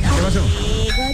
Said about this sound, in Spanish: Espera un segundo, que parece que es el ascensor.